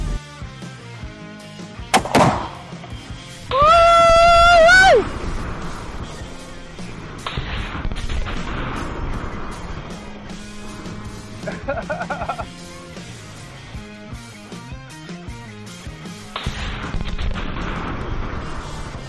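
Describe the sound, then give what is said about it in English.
A Tannerite target explodes next to a HESCO barrier: a sharp, loud blast cracks out early, followed by further bangs and a very loud burst, with people talking and exclaiming throughout. “Okay, so the HESCO barrier obviously survived the Tannerite explosion.”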